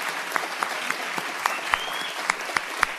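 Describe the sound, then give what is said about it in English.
Studio audience applause at a radio station event at the Linda, a steady wash of clapping with many sharper individual claps popping out at a fairly regular pace. “So give yourselves a big hand, our studio audience here at the Linda.”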